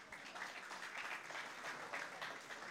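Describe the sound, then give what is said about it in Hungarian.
Applause after a joke: a dense, steady wash of many hands clapping, evenly loud for just under three seconds with no clear breaks or voices. “Na, tapsot a elélvezéshez.”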